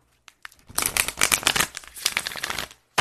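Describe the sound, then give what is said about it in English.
Tarot cards are pulled from the deck with a dense papery shuffling and rustling that swells for about two seconds before stopping. “Let's pull the full moon card for today. I'm going to pull three.”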